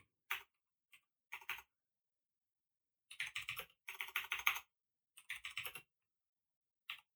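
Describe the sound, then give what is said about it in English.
Typing on a computer keyboard in irregular bursts, with quick clicky runs of keystrokes and single taps separated by silent pauses, faint and alone. “I'll just have to type them up manually.”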